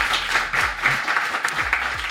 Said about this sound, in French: Claire Lejeune, qu'on applaudit également.